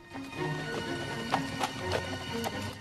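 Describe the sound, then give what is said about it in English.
A bridled horse's hooves clop steadily as it is led away from a fence, a moderate, even rhythm of hollow clip-clops at a walking pace. “Ned unties the horse he's bridled and leads it away from the fence.”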